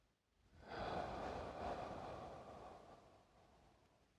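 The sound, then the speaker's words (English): A slow deep breath taken during a calm guided breathing moment: one soft, airy rush of air that swells quickly, holds, then gradually tapers into a faint hiss, with no talking. “I'm gonna take some deep breaths, and if you'd like to join me, please do.”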